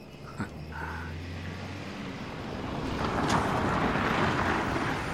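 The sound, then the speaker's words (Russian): A car pulling up to a house: a steady low engine rumble whose broad road and tire noise grows louder and fuller through the second half. “К дому подъезжает машина Люсетты”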